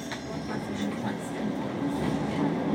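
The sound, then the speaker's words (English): A Glasgow Subway underground train runs slowly between stations during a technical problem, giving a continuous low rumble with faint rattling that swells slightly over the few seconds. “in the underground. Quite a slow train today. Technical problem.”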